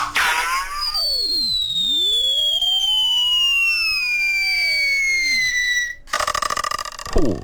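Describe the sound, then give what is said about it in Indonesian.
An arrow striking a target: a long whistling tone slides steadily downward in pitch among other sweeping tones, then a sharp impact is followed by a rapid, buzzing vibrating twang. “Tepat kesasaran, saudara. Ada bunyi getaran di situ menandakan bergetarlah jiwa orang yang terkena akan panahannya itu tadi.”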